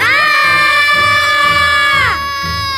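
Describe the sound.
Children screaming in fright at a ghost that suddenly speaks to them while they are alone somewhere they shouldn't be: a loud, sustained, shrill group scream lasting about two seconds, then its pitch drops and it fades to a lower wail.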